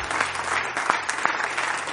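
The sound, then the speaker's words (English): A church audience claps in praise, producing dense, steady applause with a few sharper individual claps standing out, continuous and even in loudness with no clear talk. “shall we give the Lord a big clap of praise?”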